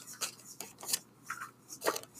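Faint paper rustling and crinkling as a small drawn slip is folded back up during a topic-drawing game, a few short, soft rasps spread unevenly over two seconds.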